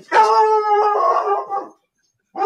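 A dog howls at a household pet: one long, full-throated tonal howl that wavers slightly in pitch and trails off. After a short silence, another howl begins.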